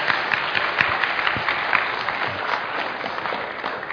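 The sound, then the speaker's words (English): Applause from a church audience welcoming a newly baptized member, steady, moderately quiet clapping from many hands that continues evenly for several seconds. “we can just let's give Robert a hand and welcome to the family.”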